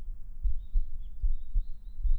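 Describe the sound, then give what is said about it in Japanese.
A heartbeat heard against the chest, soft low thumps arriving quickly in repeated lub-dub pairs, alone and at an even rhythm. “私の胸に当たってるでしょ？聞こえる？心臓の音。すごくドキドキしてるでしょ？”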